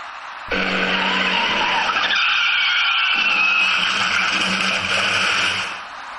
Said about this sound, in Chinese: 那辆厢式货车驾驶至主路的弯道处时，估计是因为雨中路面打滑，加上司机采取措施不力，导致车体失去了控制